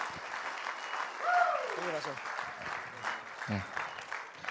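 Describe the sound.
Applause from an audience welcoming a guest speaker at a church service: steady, sustained clapping that holds at an even level throughout, with some voices mixed in.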